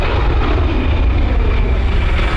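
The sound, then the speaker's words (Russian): Airplane flying above the clouds, heard as a loud, steady engine drone with a broad rushing roar that holds without pause. “Самолет летит над облаками.”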